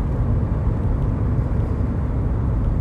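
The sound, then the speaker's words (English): Steady road and wind roar fills an MG convertible driving with the roof down. The noise is a continuous, even rumble with no breaks and no talk. “coming live from the cockpit of my MG with the roof down. So apologies, it's just a bit noisy.”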